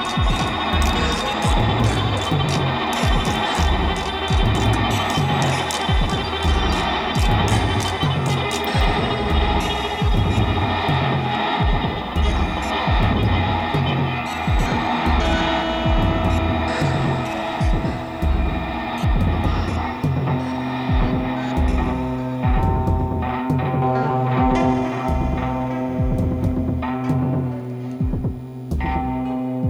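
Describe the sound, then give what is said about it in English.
A low, throbbing brr-like hum from part of a barbecue, played during a group music improvisation. It holds steady through the whole stretch beneath dense layers of tones and rhythmic pulses. “I actually don't know which part of the barbecue this is, the brr brr sound, but it sounds quite nice, right?”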